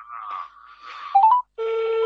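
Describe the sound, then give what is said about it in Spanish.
Telephone keypad tones as a call is dialed again: a short series of electronic beeps and warbling tones, then a steady, sustained multi-pitched tone that holds to the end. “don Carlos Ortellano, ahí se cortó la comunicación, ¿será? ¿Qué pasó ahí? Bueno, estamos llamando otra vez a la...”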